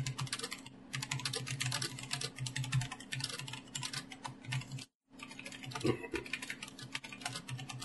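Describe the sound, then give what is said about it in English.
Fast, continuous clatter of typing on a computer keyboard, quiet and busy with dense key taps, broken by one brief pause near the middle before the tapping resumes. “What are you typing?”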